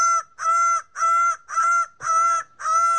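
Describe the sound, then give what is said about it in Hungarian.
A bird of paradise calls six times in a steady rhythm, each call a loud, nasal, honking note rich in harmonics, with nothing else heard. “A paradicsom madarat akarta bemutatni, csak hogy ehhez a madárnak is volt egy-két szava.”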